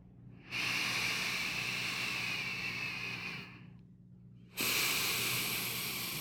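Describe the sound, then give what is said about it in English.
A slow, deep breath, heard as two long, steady, airy rushes of air with a brief quieter gap between them, alone with no talk. “go ahead and close your eyes and take a slow deep breath”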